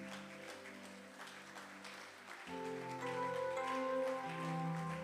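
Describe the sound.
Applause from a church audience during a worship service, a steady soft wash of clapping that grows fuller and louder halfway through, with sustained tones running beneath.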